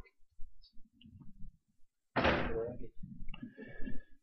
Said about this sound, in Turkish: Kapı mı çarptı senin?